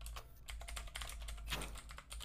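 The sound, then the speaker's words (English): Rapid typing on a computer keyboard, many crisp keystrokes clattering in an uneven but steady run, with no voices. “Make me type it out, man.”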